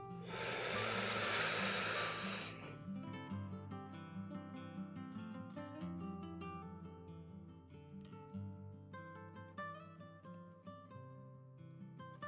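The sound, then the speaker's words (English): One deep breath during a guided breathing exercise, a loud, airy hiss lasting about two and a half seconds, followed by soft, steady background music. “So let's go ahead and take that deep breath in.”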